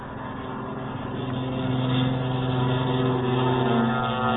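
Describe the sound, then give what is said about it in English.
Military aircraft engines as a flight takes off down the runway, a steady, low, humming engine roar that swells slightly after the first second and then holds level. “Now Clark of Kentucky is taking his flight down the runway.”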